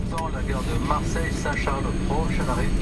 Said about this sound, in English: Ladies and gentlemen, welcome to Lviv Airport, where the local time is 10:45 a.m.